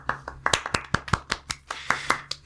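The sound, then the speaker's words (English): Scattered hand claps with many sharp, separate strikes in an irregular rhythm, fairly loud, with no voices over them. “I think, round of applause.”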